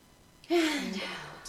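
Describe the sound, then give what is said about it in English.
A deep breath taken during a calming exercise: after a short quiet moment, one long, airy breath rises abruptly and holds for about a second, with a brief low voiced tone at its start before tapering off. “So let's take a deep breath in. Yeah. And out. Let's do one more. Okay. Deep breath in.”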